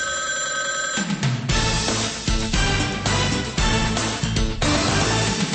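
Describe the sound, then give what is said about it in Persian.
A telephone ringing in a series of repeated bell bursts with brief gaps between them, bright and steady with no talking. “حالا شنونده ارجمند متوجه باشد که یک زنگ دیگری را خواهید شنید، اما این نه زنگ آخر بلکه زنگ اول است که همه شما را به تماس دائمی با رادیوی آزادی دعوت می کند.”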